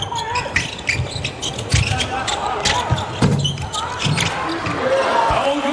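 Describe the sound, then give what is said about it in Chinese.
A basketball bounces on the rim and drops into the basket during a game, the thuds set against loud crowd noise and voices talking. “这球框上颠了两下之后颠进了篮筐”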